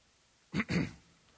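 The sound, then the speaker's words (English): A man clears his throat in two short, rough bursts, close together and fairly quiet, with silence before and after. “And he clears his throat.”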